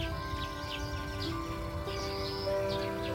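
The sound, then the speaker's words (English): Birdsong in a garden from sparrows, chaffinches and a singing male blackbird: scattered, fairly faint chirps and short warbled notes over a steady background hum. “You can hear sparrows. Some chaffinches. There's a male blackbird singing up in one of his song pots at the top of the garden.”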